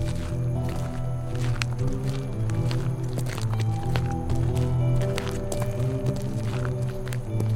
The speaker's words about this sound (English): Guayaba places the orb in his coat pocket and they continue walking.